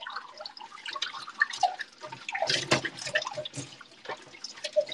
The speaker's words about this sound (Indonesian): Ah, masih cuci piring.